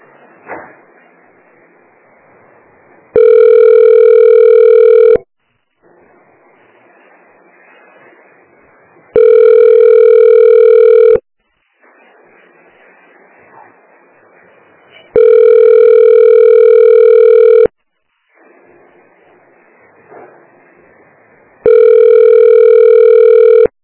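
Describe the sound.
Ringback tone of an outgoing telephone call: four loud, steady buzzing tones, each about two seconds long, separated by longer gaps of quiet line hiss.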